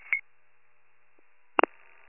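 Touch-tone telephone number dialing: a few short electronic keypad beeps, irregularly spaced, with a long silent gap after the first tone before the rest follow close together.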